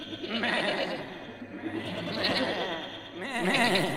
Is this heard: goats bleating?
yes

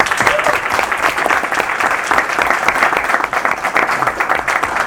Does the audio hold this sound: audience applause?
yes

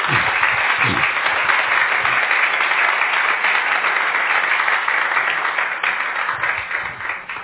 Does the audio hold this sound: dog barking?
no

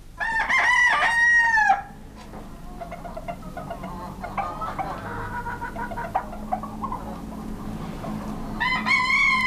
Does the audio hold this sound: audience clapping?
no

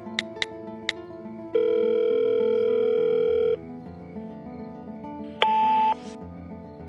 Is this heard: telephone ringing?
yes

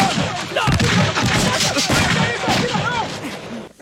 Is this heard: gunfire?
yes

